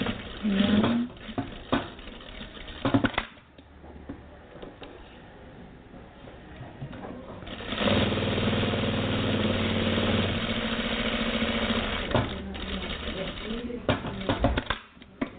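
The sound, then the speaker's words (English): Sewing machine stitching double-needle seams on a strap, a steady mechanical whirring run of several seconds in the middle, with shorter stop-start bursts and clatter before and after. “Double needle seams I'm going to do.”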